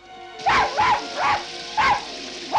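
A dog barks five times in an even rhythm. The barks are short, high and yipping, with no talk around them.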